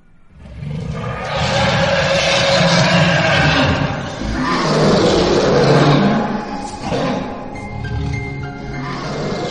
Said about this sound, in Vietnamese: Tiếng gầm nghe như là tiếng của một con quái thú khủng khiếp vậy, vô cùng kinh hãi, vang lên chấn động.